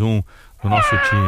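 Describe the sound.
A cat meow sound effect rings out in clear, tonal, harmonic cries that bracket a short stretch of talk in the middle.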